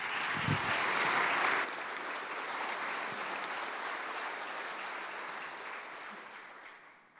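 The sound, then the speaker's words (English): Applause from a church audience welcoming a speaker, a sustained, dense clapping that holds steady for about seven seconds before easing off at the very end. “Can you give a warm Brandywine welcome to Danielle?”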